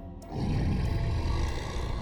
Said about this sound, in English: The monster's roar spurred him on, as if calling him closer.